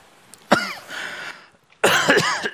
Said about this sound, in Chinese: 这咋的？看我头像的干呕啊！